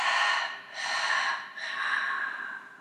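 Deep breathing during a guided breathing exercise: three long, airy breath sounds with short pauses between them, loud and clear with no talk.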